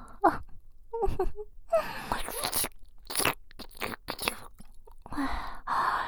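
Wet slurping mouth sounds come as many irregular, close bursts of smacking, sucking and crunchy squelches, varying in loudness, with short soft gaps and no talk.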